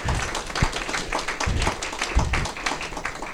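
An audience applauds to welcome a pastor to the stage, with dense, steady clapping from many hands that holds at an even loudness throughout, with no voices over it.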